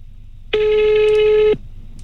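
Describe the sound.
A telephone ringing for an incoming call in a radio studio, a single loud, steady electronic tone of about a second with a bright buzzy edge, starting and stopping abruptly.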